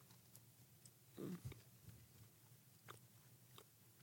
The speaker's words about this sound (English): It is a bigger piece. It's like an eighth, though. Get a two-biter. All right, here we go. Kentucky butter cake.